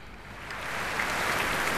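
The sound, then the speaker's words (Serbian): Audience applause at the Royal Albert Hall while a concert crowd waits for an encore, heard as a continuous hiss of many hands clapping that grows slightly louder and stays steady. “Možete čuti da aplauzi još uvek traju na sceni Royal Albert Halla dok čekamo bis.”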